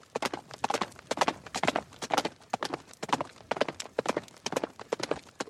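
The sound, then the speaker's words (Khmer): Horse hooves clip-clop in a steady, rhythmic run of many sharp, hard strikes. The beats fall in repeating clusters, with no talk over them. “ស្រាប់តែលឺស្នូជើងសេះគប់គប់មកពីក្រោយ”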